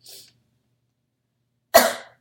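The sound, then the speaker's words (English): A single sharp, loud cough bursts out after a faint, brief breathy sound and a stretch of silence, then fades quickly. “Sorry, I'm coughing.”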